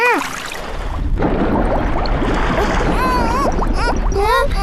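Water splashes and bubbles as cartoon characters dive underwater, a dense churning wash with many quick bubbly pops and squeaky rising tones layered over it.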